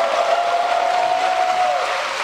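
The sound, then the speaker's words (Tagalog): Applause greets Philippine President Ferdinand Marcos Jr.'s statement on removing systems loss charges and their VAT from electric bills: dense, continuous clapping from a large standing audience, with a steady high tone running through most of it. “Sinalubong ng masigabong palakpakan at standing ovation ang pahayag ni President Ferdinand R. Marcos Jr. ukol sa pagtanggal sa systems loss at ang VAT nito.”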